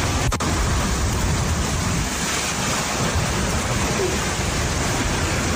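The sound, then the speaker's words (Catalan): A downburst, a violent gust of cold air, strikes L'Hospitalet de Llobregat as a loud, steady rushing roar of wind that holds almost unbroken apart from one brief dip near the start. “És el so de l'esclafit que hi va haver-hi ahir a l'Hospitalet de Llobregat.”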